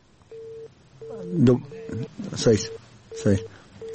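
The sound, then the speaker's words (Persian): A telephone disconnect tone sounds after a phone-in caller's line drops. The steady mid-pitched beep repeats in a regular on-off rhythm while people talk over it. “خب شنونده های عزیز، تماس آقای عظیمی با ما قطع شد، دوباره کوشش میکنیم که تماس وصل شود”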